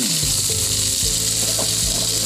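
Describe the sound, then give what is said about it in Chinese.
Diced pork belly sizzles in hot oil as it fries to render the lard before the fish is braised, a loud, continuous crackling hiss with no pauses. “现在呢，我们留一部分的油脂，先炒五花肉丁。”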